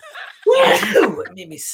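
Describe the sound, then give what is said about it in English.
A person's sneeze, one loud, sudden burst that breaks the quiet and trails into a voiced, breathy exhale. “It made me sneeze. Oh, wow. What a sneeze.”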